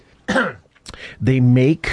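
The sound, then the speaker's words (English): A dry cough, with a few short, harsh bursts separated by brief gaps and one longer rasping stretch in the middle. “Did you cough? Was that a cough? Yeah, it was a dry cough. It's a dry cough, not a wet cough.”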